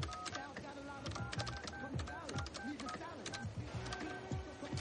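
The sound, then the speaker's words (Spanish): Button presses on a payphone in a phone booth as a number is dialed: a quick, irregular run of faint clicks over a quiet, busy background. “Se acerca a una cabina y saca la tarjeta que le dio Nick para marcar su número.”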